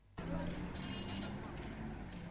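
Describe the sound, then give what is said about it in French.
Evening rush-hour ambience at a busy bus station in Bujumbura around 5 pm: a steady wash of traffic rumble and engine noise starts abruptly and carries on, with people talking in the background. “Nous sommes à la gare de bus des quartiers de la capitale économique. C'est vers 17h. Des gens quittent leur lieu de travail. Les rabatteurs donnent des orientations aux passagers selon leur destination.”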